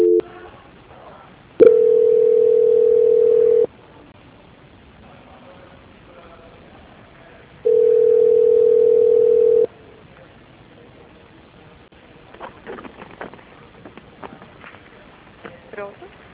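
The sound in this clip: A telephone line plays ringback tones while a call is transferred: two steady, long beeps of about two seconds each, separated by quiet line hiss, followed by scattered faint clicks.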